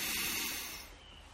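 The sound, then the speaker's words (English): A single deep inhaled breath taken slowly, an airy rush that is loudest at the start and tapers off gradually, faint and with no talking. “So let's do that together. Let's take in a big breath.”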